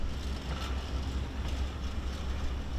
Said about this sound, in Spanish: El tren avanza junto a zonas residenciales destruidas. Corre solo a unos 30 kilómetros por hora, pero no se detiene.